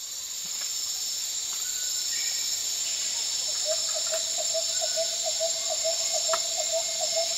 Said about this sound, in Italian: Quello che avete appena sentito è il suono della foresta tropicale nel Borneo, la grande isola nel sud-est asiatico divisa tra Malesia, Brunei e Indonesia.